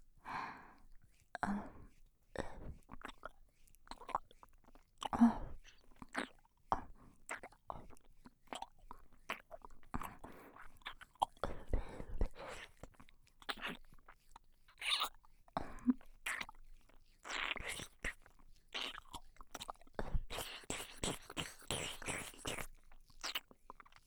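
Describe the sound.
Wet ASMR mouth sounds of a role-play nibbling an earlobe: many small clicks, smacks and moist crackles in an irregular, close, intimate rhythm, with soft breaths between them.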